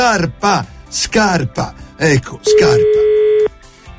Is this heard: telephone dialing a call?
yes